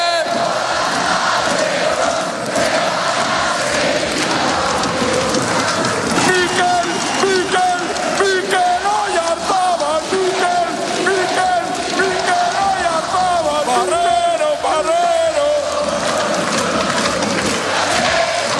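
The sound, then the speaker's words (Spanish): Roar of more than 100,000 Real Sociedad football fans celebrating at the team's party: a dense, loud, continuous crowd din with shouting and sung chants that never lets up. “Así sonó la fiesta de la Real con su afición.”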